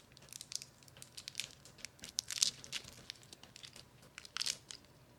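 Teeth biting into a hard, sour, artificial lemon-flavored candy, producing a series of irregular, crisp crunching and crackling bursts, fairly quiet overall with a few louder clusters and no talk.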